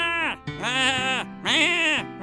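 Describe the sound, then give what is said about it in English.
A human voice imitates a goat, giving three wavering, nasal bleats. The middle and last bleats are longer and louder than the first, and each has a shaky vibrato and falls away at the end. “Those weird goat noises I'm making.”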